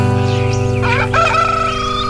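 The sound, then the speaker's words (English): A rooster crows once at dawn, loud and brief with a wavering call, over a steady electronic house beat. “Hear that rooster crowing.”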